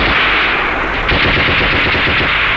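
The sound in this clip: Sustained machine-gun fire during a battle with enemy troops, a dense, loud, unbroken stream of rapid shots lasting the whole stretch, with no voices.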